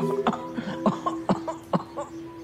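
Quiet, repeated coughing from an old woman: several short, throaty bursts at uneven intervals over a low steady hum.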